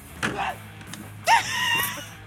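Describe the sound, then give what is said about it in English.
A person gives a short, sharp yelp of surprise, a brief high vocal burst after a fainter gasp-like sound, with quiet background noise between. “Why do you look at it and scream? That scream? Or yelp? I don't know. I know, it wasn't even really a scream,”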